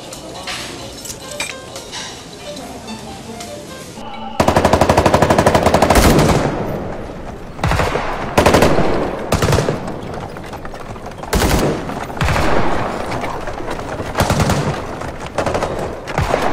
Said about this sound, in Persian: صدای مسلسل توه؟ بله قربان، همونه.